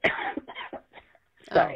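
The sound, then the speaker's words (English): A caller on a voice message coughs and chokes on phlegm, giving several harsh, wet bursts and throat-clearing, with the last burst the loudest. “That person choked on their own phlegm in the middle of calling Allie gross and disgusting.”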